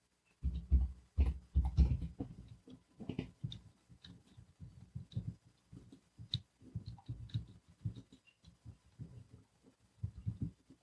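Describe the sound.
Typing on a keyboard: irregular bursts of soft taps and dull low key thuds, fairly faint, with short pauses between runs.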